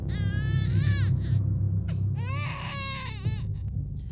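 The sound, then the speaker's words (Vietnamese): A baby cries in shrill, wailing bursts: one long cry, a short pause, then a second drawn-out cry. A steady low hum runs underneath the whole time. “đứa bé con ấy khóc lên choe choé, chính là tiếng khóc lúc nãy nó đã nghe được.”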